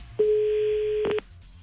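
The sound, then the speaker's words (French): A single steady telephone ringing tone lasts about one second as an outgoing call rings out, clear and level over a faint, low background. “Allez, c'est parti, à 8h25, on y va, on appelle.”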